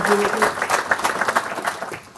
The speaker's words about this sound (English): Ladies and gents, round of applause for our man.